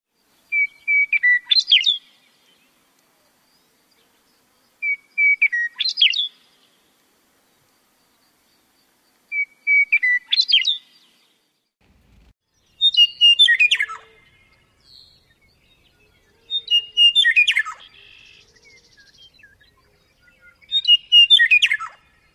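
A male meadowlark sings six clear, whistled song phrases, each a quick run of bright, descending notes, separated by regular pauses of quiet.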